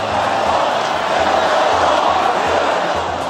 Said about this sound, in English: At a campaign rally in Phoenix on Tuesday, Trump supporters cheered as the president promised to build the border wall at all costs, even if it means shutting down the government.